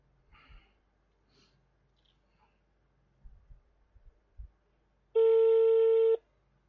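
Ringing tone on an outgoing telephone call: one loud, steady buzzing tone lasting about a second, preceded by faint breathing and small handling noises in otherwise quiet surroundings.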